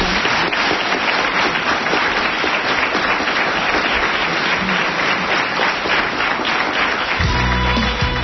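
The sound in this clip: An audience applauds at the close of a talk gathering, giving a dense, even roar of many hands clapping without a break through the whole stretch.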